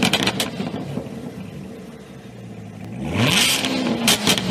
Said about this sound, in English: Yeah, that's a totally different motor.